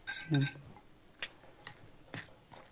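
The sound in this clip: Utensil clinks against a bowl while red sauce and other ingredients are mixed together, a few faint, sharp taps spread over a quiet background.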